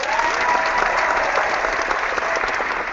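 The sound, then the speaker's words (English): Canned studio-audience applause on a college football talk show: dense, uniform clapping held at a steady level throughout, with a muffled top end. “The studio audience is happy to see you, Brad. I'm happy to see them, too, if only they were real.”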